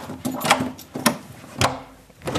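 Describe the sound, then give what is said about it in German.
A door to a secured, cooled inner room is unlocked and opened: a few sharp clicks and knocks at uneven intervals over a steady low hum. “Das heißt, nochmal eine Türe aufschließen, nochmal eine Sicherung.”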